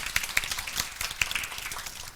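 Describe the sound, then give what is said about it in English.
Scattered audience applause during a technical presentation: a loose patter of claps with a few sharper hits standing out, moderately loud and without voices. “you can applaud Clay for his hard work.”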